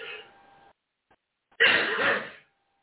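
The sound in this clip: A person clears their throat once in a harsh, rasping burst lasting under a second, loud and alone after a brief softer sound and a short silence.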